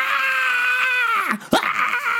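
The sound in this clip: A voice imitates the scream of a Dianoga, a water creature bursting its mouth above the water: a strained, high harmonic screech held steady, then sliding down in pitch before a short harsh burst and more rasping noise.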